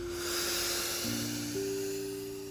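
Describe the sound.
A long, audible breath exhaled during a guided breathing exercise for anxiety, a soft airy hiss that swells early and slowly fades, faint over quiet sustained tones.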